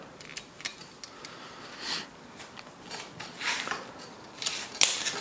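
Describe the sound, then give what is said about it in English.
Torx head screws are loosened on the rail mount of a 2024 Elevate bow, giving small scattered metallic ticks, scrapes and a brief rattle, fairly quiet throughout. “So these are a Torx head. So we loosen those.”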